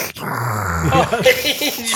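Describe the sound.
A voice imitates Darth Vader's mechanical breathing with a low, rasping, growly sound that runs unbroken for about two seconds.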